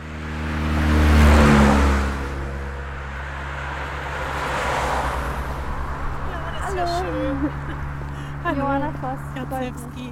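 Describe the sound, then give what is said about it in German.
Traffic passes on an expressway beside a dirt field path between the road and a landfill near Delitzsch. A few vehicles rush by in swelling, fading whooshes over a low steady hum, then people start talking. “Feldweg klingt erstmal nach Natur, tatsächlich sind wir hier aber zwischen einer Schnellstraße und einer Müllhalde unterwegs.”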